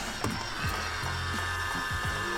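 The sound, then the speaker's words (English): A suction toy runs with its inner insert spinning, making a steady whirring hum with a high, thin whine on top. Faint low knocks and creaks sound through it. “It's just hard to demonstrate I'm trying to demonstrate the suction, but it's kind of hard to demonstrate the suction because the insert,”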